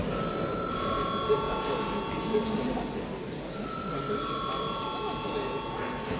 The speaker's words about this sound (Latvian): Lūdzu zvanu.